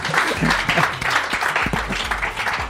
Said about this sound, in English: Everyone, let's give Vincent a round of applause.